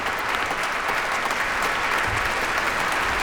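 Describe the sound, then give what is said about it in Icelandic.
Dense, steady applause from a concert audience after a piano encore, its even roar holding at a constant level for the full three seconds without a break. “og hér er hún að sjálfsögðu vel fagnað”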